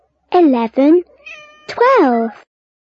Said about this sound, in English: 11, 12 cats? Where's the orange cat?